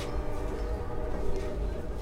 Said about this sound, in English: A train rumbles by as I walk outside a Union soldier hospital.